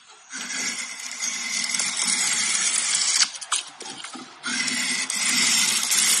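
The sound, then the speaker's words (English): Curved blade pulled along wood towards the carver, peeling off shavings: a long, steady, hissing scrape, broken midway by a stretch of shorter uneven rasps, then another sustained pull. “So it's like a wood carving, wood shaving type of deal.”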